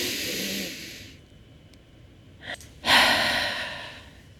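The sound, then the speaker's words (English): A big, deep breath drawn in, heard as airy, hissing breath noise. A long soft breath comes first, then a brief puff and a louder, fuller inhale that swells and slowly fades, with no talking. “when you take a big deep breath in”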